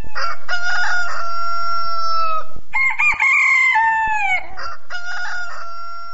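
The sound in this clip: A rooster crows again and again, each long, loud, harmonic call following the last after a short gap, with no voices present.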